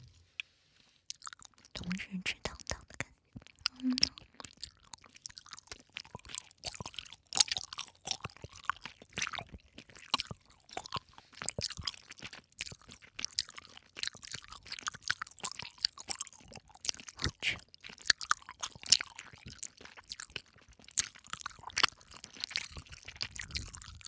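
Close chewing of sweet and sour food: many crisp, wet crunches and bites in a steady, uneven rhythm, fairly quiet, with no talk.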